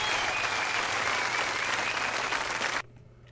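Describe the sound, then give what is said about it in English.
Studio audience applause at the close of a live song performance for a Christmas TV special at BBC TV Studios, Birmingham: dense, steady clapping that stops abruptly just before the end. “Was that a live recording? They got the audience in at the very end there. Christmas TV special, BBC TV Studios,”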